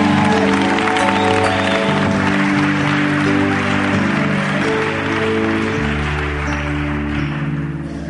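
An audience applauds and acclaims at a church service, a broad wash of clapping blended with loud, sustained keyboard chords that shift midway and hold to the end.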